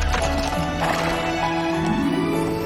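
Hooves of a horse pulling a red carriage clip-clop in a steady, even rhythm throughout, joined by a whinnying neigh from the horse.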